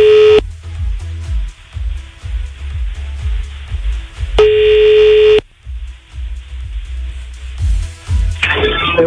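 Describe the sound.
Telephone ringing tone on an outgoing call: two steady, mid-pitched beeps about a second long and several seconds apart, over a rhythmic background bed that plays throughout.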